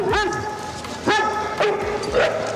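A dog barks and yips in a few sharp, high-pitched bursts, loud and fairly evenly spaced, with some whiny tone between them.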